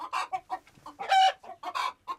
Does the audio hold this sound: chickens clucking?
yes